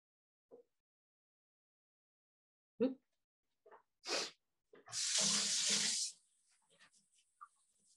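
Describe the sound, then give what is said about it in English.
Hands are washed under a running tap during a cooking demonstration: a few faint knocks and clicks, then a loud hiss of running water lasting about a second, followed by soft trailing splashes. “All right, so let me just wash my hands real quick.”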